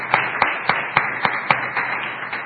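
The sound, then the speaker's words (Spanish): Applause for a guest on a show, heard as a steady series of evenly spaced, crisp hand claps in a regular rhythm, moderately loud and with no voices. “Aplausos, hombre, aplausos.”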